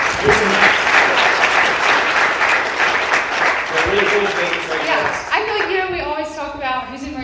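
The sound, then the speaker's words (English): An audience applauds a newlywed couple from Montana, married less than six months, with loud, steady clapping that thins out toward the end as a person begins talking over it. “Give them a round.”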